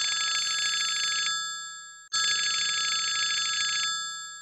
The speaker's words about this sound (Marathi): एक minute, प्रभेचा phone.